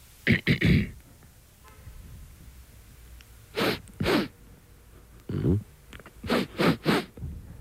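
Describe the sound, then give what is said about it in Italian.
A voice imitates an 18-year-old man with a cold sniffling, producing short, sharp nasal sniffs in separate clusters of two to four, with quiet gaps between them. “Un uomo di 18 anni, sì, afflitto da raffreddore. Va bene. Che tira su col naso.”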